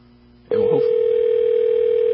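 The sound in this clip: A steady telephone dial tone cuts in abruptly after about half a second of near silence, then holds at one even, unbroken pitch at a fairly loud level until the end.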